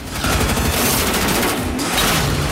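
Machine gun fire from a moving car, a loud, dense burst of rapid shots merging into a continuous crackling roar that holds steady throughout.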